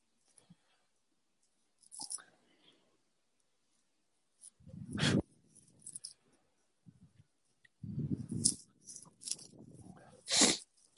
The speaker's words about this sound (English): Quality snort right there.